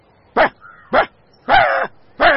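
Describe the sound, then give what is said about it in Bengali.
A dog barks four times in sharp, mid-pitched bursts, alone. The last two barks are a little longer and rougher than the first two. “টোটো এক লাফে তার কোল থেকে নেমে ঘেউ ঘেউ করতে লাগল।”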